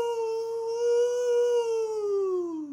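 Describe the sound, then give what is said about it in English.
A man imitates a coyote howl with one long, steady voiced note that holds its pitch, then slides downward at the end. The howl is fairly loud and heard alone. “This is the Sound of the Week, brought to you by a man pretending to be a coyote.”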